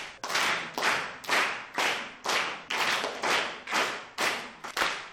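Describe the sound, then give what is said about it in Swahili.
Pupils in a classroom clap together in a quick, rhythmic series of loud, sharp bursts, about two per second, with no talking heard. “Safi sana, mpigie makofi.”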